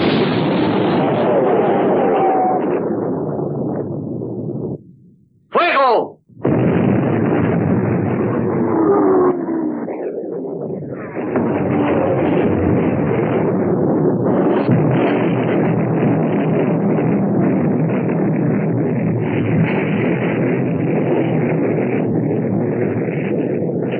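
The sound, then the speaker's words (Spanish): Naval artillery guns firing during a sea battle in a 1960 film about sinking the Bismarck: loud, sustained booming and rumbling blasts that break off briefly around five seconds, then resume and roar on without a pause. “Tiran demasiado cerca para mi gusto. ¡Mire 200 a estribor, comandante! ¡Fuego!”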